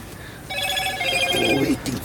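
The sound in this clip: A telephone rings inside a truck cab, a steady electronic ringtone of bright repeating tones that holds for over a second, with a voice briefly overlapping near the end.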